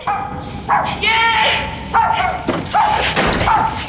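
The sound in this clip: Dogs yelping and barking in a cellar: a few sharp, high yips and whining cries in quick bursts, loud and strained, with a human voice crying out among them.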